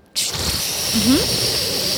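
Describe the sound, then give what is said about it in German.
A voice imitates a toilet cistern flushing after the button is pressed: a sudden breathy hiss that starts abruptly and holds steady for nearly two seconds. “Es gibt ja eine Toilettenspülung mit so einem Spülkasten. Ja. Da drückt man auf den Taster und dann macht es so.”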